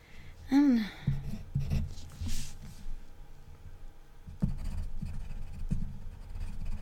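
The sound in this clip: Pen scratching on paper as someone writes out an answer to a quiz question, soft irregular strokes running throughout, with a short voice sound near the beginning and quiet talk in the background.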